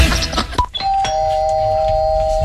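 A doorbell rings, a short chime of a few bright tones after a brief rustle, the last tone holding on steadily and clearly.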